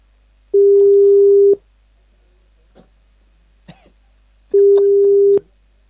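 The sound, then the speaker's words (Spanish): An outgoing telephone call rings through: two steady, loud, flat tones about a second each, separated by a few seconds of near silence broken by faint clicks and a brief rustle. “Ahí estamos llamando a los chiquillos.”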